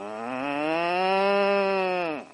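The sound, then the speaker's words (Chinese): A man imitates a cow mooing: one long, nasal, buzzing call holds a steady pitch for about two seconds, then drops sharply and cuts off. “哦，所以刘德华学牛叫是这样。 我们在听普通的牛叫。 哎、欸，我鼻音比较重吗？ 啊，刘德华的来喽。”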